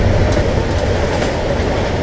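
A Deutsche Bahn train stopping at a station: a loud, steady low rumble of the railcar with faint clickety rattling of the wheels on the track.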